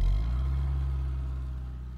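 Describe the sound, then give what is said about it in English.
Car engine droning steadily on a long drive to Texas, a low humming tone that eases slightly in loudness before cutting off abruptly at the end. “So I loaded up the car and headed for Texas.”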